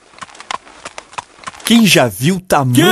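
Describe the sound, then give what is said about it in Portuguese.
Horse hooves clip-clop as a farmer's cart loaded with seeds for the mill approaches, a run of sharp, irregular knocks heard alone at first and then continuing beneath a talking voice. “Primeiro, veio um fazendeiro com uma carroça carregada de sementes que levava para a moagem na usina.”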